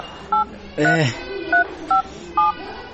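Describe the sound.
Telephone keypad dialing tones as someone places a call, four short bright beeps spaced irregularly, with a brief vocal sound between the first and second beep.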